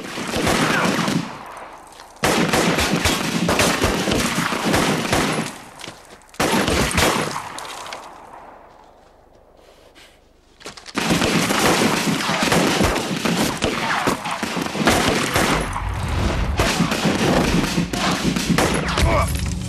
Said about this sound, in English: The other two are now showered with gunfire.